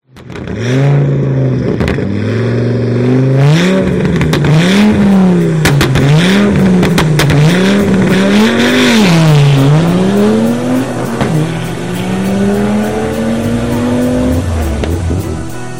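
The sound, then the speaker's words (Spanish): A car drives off at night and accelerates hard, its loud engine revving up and down repeatedly through the gears, the pitch climbing and dropping in waves before settling into a steadier, rising drone. “Esta vez vamos con mi otro coche, que ya es de noche y me apetece que coja el aire. Venga, pues nos vamos.”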